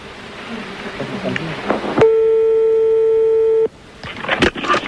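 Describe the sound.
A telephone call being placed: one steady, loud telephone tone holds for about a second and a half, with muffled voices and rustling noise before and after it.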